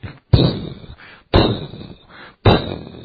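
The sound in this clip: Three heavy blasts from 120-millimeter mortar rounds exploding, spaced about a second apart, each a sharp, loud onset followed by a rumbling decay.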